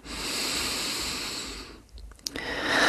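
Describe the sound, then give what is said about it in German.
Slow, deep breathing during a guided breathing exercise: a long, steady airy rush of breath, then a brief quiet pause with faint clicks, then another breath swelling loudly at the end. “Und einatmen, ausatmen, einatmen,”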